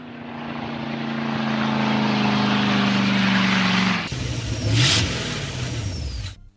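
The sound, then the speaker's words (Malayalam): Car engine revving as the vehicle is turned around: a loud, sustained droning whine that climbs slowly in pitch, then shifts sharply to a rougher, lower roar before cutting off. “വണ്ടി തിരിച്ചിട്ടേക്ക്”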